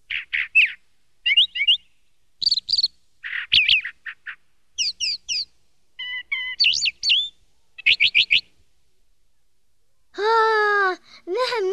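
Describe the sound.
Sparrow chirping: many short, bright, high-pitched chirps and trills in quick clusters separated by silence, ending with a longer, lower, harmonic call.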